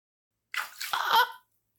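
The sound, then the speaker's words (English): Water splashed onto a person: one short, hissing burst of spray lasting under a second, heard alone with silence before and after. “You did not just splash me with that.”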